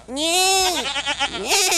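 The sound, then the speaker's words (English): A voice imitating a goat bleat: one loud, wavering, nasal call lasting under two seconds, with a quivering pitch and nothing else behind it. “I think we may have found a goat. Goat.”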